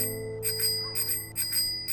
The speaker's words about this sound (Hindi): तभी मेरे कान में जोर जोर से साइकिल की घंटी बजने लगी।